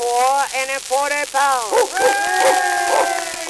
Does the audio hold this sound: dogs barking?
yes